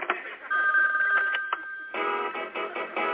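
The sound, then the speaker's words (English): A telephone rings with an incoming call, a steady, bright electronic ringing that goes on throughout with brief breaks, thin and muffled in tone. “I got another call coming in. I gotta let the machine get it.”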